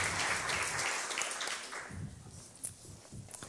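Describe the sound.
Congregation applause in a church service, dense clapping that is loudest at first, then thins and fades, with a few soft low thumps toward the end.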